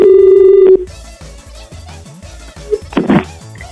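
A telephone call tone sounds once as a loud, flat, steady buzz lasting under a second. It is followed by quieter mixed background sounds.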